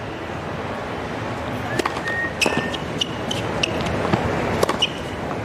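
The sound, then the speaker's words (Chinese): Sharp racket-on-ball strikes during a serve by Zheng Qinwen at a professional tennis match: a few crisp, brief impacts stand out over a steady bed of crowd murmur. “好发球！”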